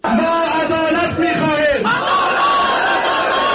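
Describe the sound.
Protesters chant slogans in front of the Herat provincial building: supporters of dozens of protesting Wolesi Jirga candidates. Many voices shout together, loud and unbroken throughout.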